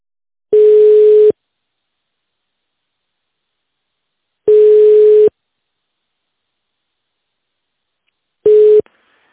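A telephone ringback tone sounds while a caller waits for an operator at a clinic's phone line. Three steady mid-pitched tones, each under a second long, are separated by long silences, and the last is cut short.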